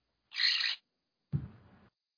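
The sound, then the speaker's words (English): A bird calls twice with short, harsh notes: the first is a thin, high, breathy burst and the second, after a brief pause, is lower and rougher and fades quickly. No other sound is heard. “The birdie answered, but I don't speak bird.”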